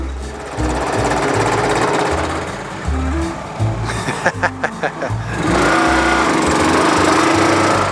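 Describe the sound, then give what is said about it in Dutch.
A small tracked crawler vehicle's engine runs at a farm, a loud continuous motor drone that breaks into a few sharp knocking bursts midway before settling back into a steady roar. “Ja, dat is een leuk ding. Een rupsvoertuigje.”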